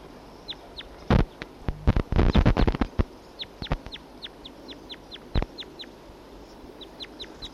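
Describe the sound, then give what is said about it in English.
Two wild birds calling, giving many short, high, downward-sweeping chirps in a steady repeated series, with a burst of loud knocking and rustling noise in the first few seconds. “Two wild birds together.”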